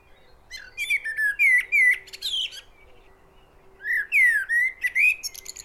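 Bird song of bright whistled phrases and chirps in two bursts separated by a short pause, clear over a faint steady hum, with no voices.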